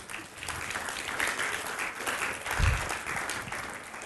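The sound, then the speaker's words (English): A church audience applauds, producing a dense, steady wash of many hands clapping. It stays moderately loud throughout with no clear pause. “And yes, give them a clap.”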